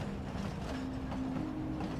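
A train chugging along, heard from an open boxcar as it rolls past grazing horses: a faint, steady low rumble with a thin sustained hum and no voices.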